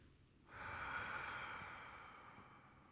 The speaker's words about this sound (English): Deep breath in.